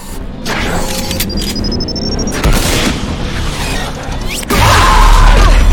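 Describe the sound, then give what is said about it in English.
Heavy weapons fire from a giant armoured mech in a video game: a dense, continuous roar of shots and booms with no pause, swelling into louder bursts twice, with no voices. “We open the door, and there's a giant mech. Oh, shit. It's shooting up the Corians.”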